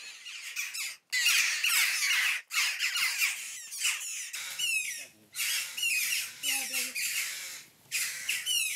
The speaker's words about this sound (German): Schwächere Stimmbänder, aber mindestens genauso hungrig. Das Mäuse-Bussard-Küken. Hast du Hunger?